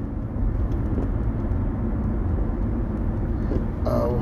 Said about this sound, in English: My bad. I was getting sidetracked with this car.